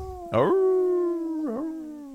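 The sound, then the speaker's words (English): A person's voice imitates a howl, a drawn-out, steady tone with a sharp onset, a wavering dip midway, and a long sustained tail. “The mountains on the can emit the howls of the underworld when your beer is cold.”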